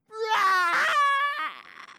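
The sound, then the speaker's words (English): A voice imitates a hungry baby's sobbing cry: a sustained, wavering wail that breaks off into a shorter, trailing sob. “how many remember having a child and then watching that kind of, that little sob, like, and then, they're getting hungrier and hungrier”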